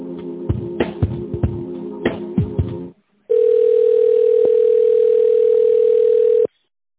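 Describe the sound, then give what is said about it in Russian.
Telephone tones as a call is transferred: a rhythmic, pulsing tone pattern for about three seconds, a short gap, then a loud, steady continuous tone that cuts off abruptly. “Сейчас соединю, зовут Инна.”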